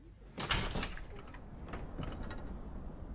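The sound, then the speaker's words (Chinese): A window slides open with a few soft scraping rattles, the strongest near the start, then a faint, continuous rustle. “好嘛，你去把窗户打开。”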